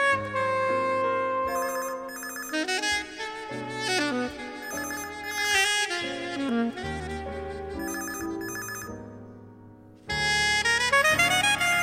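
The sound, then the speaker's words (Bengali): A telephone rings on and on with a melodic electronic ringtone of stepped, bright tones. The tune plays steadily, breaks off briefly near the end and then starts again, with no voices. “পরের দিন যখন phone এলো নির্দিষ্ট সময়ে, মানুষ মুকুল ছুঁলই না, বেজে বেজে যখন থেমে গেল”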